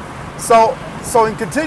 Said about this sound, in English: Sorry about the ambient noise. I've got all the windows open in the car.